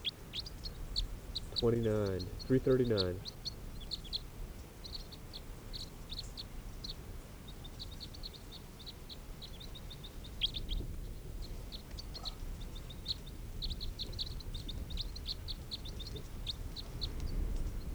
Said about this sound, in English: This is bird